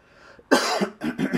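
A person with a sore throat coughs a few times in quick succession, the harsh bursts loud and clear after a brief quiet moment.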